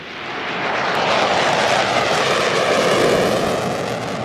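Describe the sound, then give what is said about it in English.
NASA's X-59 experimental supersonic jet flies past with a broad, steady jet roar and no sonic boom. The roar swells in over the first second, holds strong, then eases slightly at the end. “That is NASA's X-59 aircraft, also known as the Son of Concorde. It's broken the sound barrier, but what you won't have heard there was a sonic boom.”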